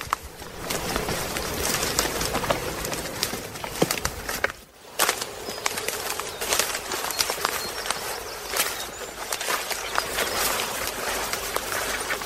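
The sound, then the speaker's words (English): A bird calls near its nest in the woods, its calls faint and scattered over a steady rustling background. “Is that the bird you were looking at? It is. I think that might be its nest.”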